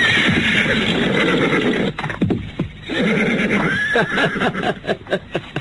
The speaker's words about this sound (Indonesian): ada seekor kuda di sini.